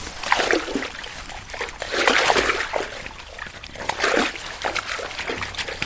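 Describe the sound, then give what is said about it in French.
Water trickles slowly from a nearly empty pipe in a reed marsh between Narbonne and Gruissan, giving an irregular stream of gurgling, splashing bursts that swell and fade in uneven waves, fairly steady and with no voices. “On entend bien le tuyau là qui est vide, voilà, il n'y a pas beaucoup d'algues, ça coule très peu.”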